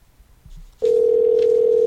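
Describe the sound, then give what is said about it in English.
A telephone call rings out to a guest: after a short quiet moment with a few faint clicks, a loud, steady, unbroken tone starts and holds to the end. “Oh, we're calling this special guest.”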